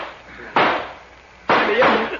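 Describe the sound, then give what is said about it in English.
Gunshots in a radio drama: two sharp, loud bangs about a second apart, each bursting across a wide band and then trailing off in a ringing noisy decay. “Get down on the floor, Harriet. Can't see anything. Start shooting with it. Start shooting.”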